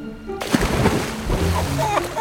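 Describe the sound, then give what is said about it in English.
A splash as someone jumps into water beside a raft: a sudden burst of spray followed by steady sloshing and churning water that continues to the end. “I can jump in and hold onto the raft.”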